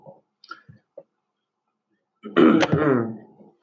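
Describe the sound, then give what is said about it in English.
A person clears their throat once in a harsh, rasping burst after a few soft, brief clicks and near silence. The throat clearing is loud, lasts about a second, and fades off alone without speech. “I'm just clearing my throat so I can read it.”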